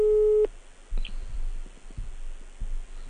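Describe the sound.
A telephone line gives a busy tone on a call that is not getting through. One steady mid-pitched tone burst is followed by soft clicks and low line noise.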